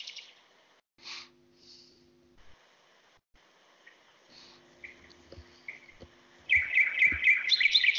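Nightingale song in daytime: a few sparse high chirps and short whistled phrases over a low steady hum, then a loud, dense run of rapid repeated notes near the end.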